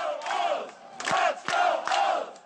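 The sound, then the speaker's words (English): Crowd cheering from outside Camden Yards, heard during an Orioles game with no fans inside after a home run: chant-like shouting from many voices rising in a few surges, with short dips between them. “When you're rounding the bases and the only cheers you hear from outside the stadium, it's a weird feeling.”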